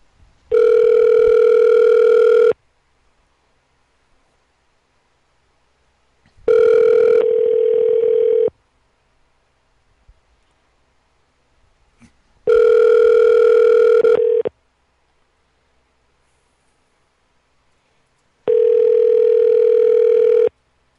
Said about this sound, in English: Calling Chauncey back as the devil.